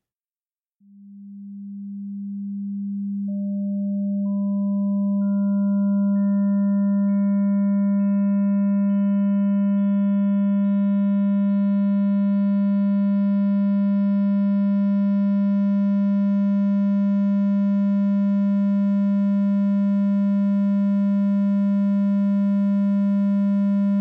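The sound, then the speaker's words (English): A pure sine tone gradually builds into a triangle wave through additive synthesis, gaining higher harmonics one after another so the steady, loud note grows brighter and buzzier over about twenty-four seconds, alone. “So, if we want to create a triangle wave through additive synthesis from an initial sine wave, it'd sound a bit like this.”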